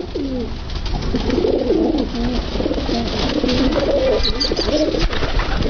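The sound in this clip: Pigeons cooing, with low, rolling coos repeated one after another in a steady, continuous stream. The calls are loud and clear over faint background noise.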